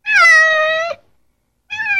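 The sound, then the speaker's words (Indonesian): A house cat meows twice, loud and clear: a long, even meow, then a pause of about three-quarters of a second, then a second meow that is cut off at the end. “suara binatang apakah itu? Kucing, iya benar. Kucing bukan binatang liar. Kucing adalah binatang yang dipelihara di rumah.”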